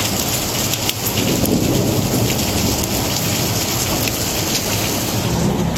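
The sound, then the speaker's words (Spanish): Heavy rain in a thunderstorm in the Murcia region during a rain warning: a dense, continuous loud hiss of falling water with deep rumbling underneath, steady throughout. “La región de Murcia está en aviso amarillo por lluvias en la Vega del Segura, Campo de Cartagena y Mazarrón, según la EMET”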